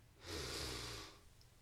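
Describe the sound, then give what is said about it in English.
A single deep breath drawn in during a guided relaxation exercise: a soft, airy rush that swells and then fades over about a second, heard alone with no talk. “Let's relax and breathe. Breathe in love. Breathe out love. Breathe in peace.”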